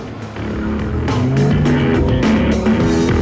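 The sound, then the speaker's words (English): Engines of four souped-up cars coming round a corner, a loud, steady rumbling roar that swells slightly and holds throughout. “Then their attention is drawn to four souped-up cars coming round the corner. The vehicles weave around the streets, then park alongside each other.”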